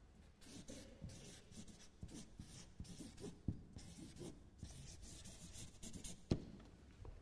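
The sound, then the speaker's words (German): Handwriting: faint, scratchy pen strokes and light rubs follow one another irregularly, with a few sharper taps as the pen lifts and lands. “Vollständigkeitshalber schreibe ich auch da noch das eine.”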